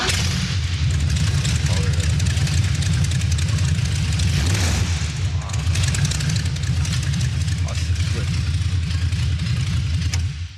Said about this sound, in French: le son du V8 quoi. Bah justement on se l'écoute. Allez, vas-y. Alors ça se démarre, t'as un petit. Tu lèves le bouton rouge. Bouton rouge, tac. Voilà, et t'appuies sur le gros rouge. Engine start.